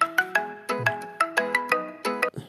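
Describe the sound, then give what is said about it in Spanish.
A mobile phone ringtone sounds for an incoming call, playing a bright melodic pattern of many quick tonal notes in short repeating phrases. It is loud and clear, with no talking over it. “inclusive es que entró una llamada, perdón.”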